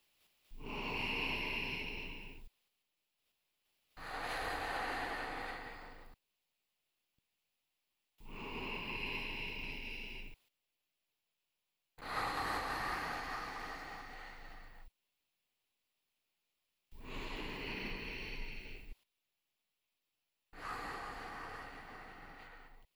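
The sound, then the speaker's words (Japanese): Slow, relaxed human breathing: six long, soft breaths, each about two seconds, with quiet pauses between them in an even, unhurried rhythm. “呼吸がゆったり。”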